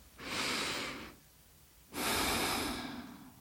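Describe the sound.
A deep breath in and out: two long, airy breath sounds, each about a second long, separated by a short quiet pause.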